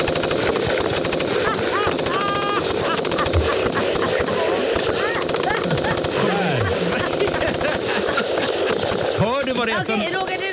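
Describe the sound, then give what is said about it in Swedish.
Machine-gun fire rattles in rapid, unbroken bursts for the whole stretch, loud and dense, with voices mixed into the din. “jag tror faktiskt att vi har en liten kulspruta här. Så att du ska komma i lite stämning.”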